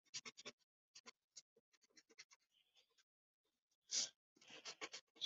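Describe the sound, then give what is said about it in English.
An eraser rubs out lines drawn inside a sketched character's face, many short, quiet scratchy strokes in an irregular rhythm, broken by a pause and one longer, louder rub before a final flurry of quick strokes. “I'm gonna erase the lines inside of her face.”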